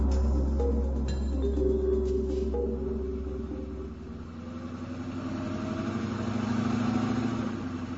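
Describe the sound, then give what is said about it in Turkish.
A minibus arrives with its engine running, a steady low rumble that idles throughout, with a few brief tonal sounds early on and a slight swell near the end. “Minibüs kapıda mı? Az önce geldi efendim. Çocukları alıp minibüse bindir, ben de geliyorum.”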